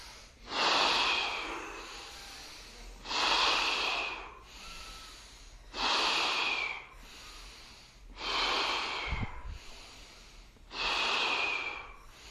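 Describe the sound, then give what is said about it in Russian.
Forceful breathing from a breathing exercise, with candle-blowing exhales and inhales. Five loud, breathy bursts come at an even pace about two and a half seconds apart, alone and with no talk. “Задувание свечи, вдох.”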